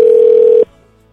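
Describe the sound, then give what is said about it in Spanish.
Telephone dial tone on an outgoing call: a loud, steady single-pitched hum that holds for about half a second, then cuts off abruptly, leaving only a faint low hiss. “A ver si nos contesta. Ya estamos comunicándonos con Rodrigo desde la Ciudad de México hasta alguna parte de los Estados Unidos”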